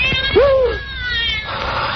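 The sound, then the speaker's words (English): A cat meows once, a clear drawn-out cry that rises then slides down, with faint fainter cries around it. It is a stray cat that has wandered onto an island at night. “The cat's come back to the island.”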